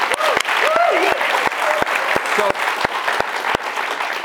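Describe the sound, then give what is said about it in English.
Audience applause rises as a steady, dense patter of many hands after a question-and-answer segment. Voices talk over the clapping early on, and a few sharp, crisp claps stand out from the crowd throughout. “Thanks to the audience for our questions. And we have time for me to get one in. Yeah, thanks, folks. Appreciate that. Yeah, give yourself a hand.”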